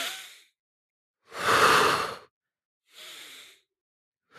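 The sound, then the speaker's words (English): Deep breathing, drawn in through the nose and pushed out through the mouth, comes as a few breathy rushes separated by silence, with the middle breath the loudest and longest. “You want to take 6 deep inhales through your nose, out through your mouth.”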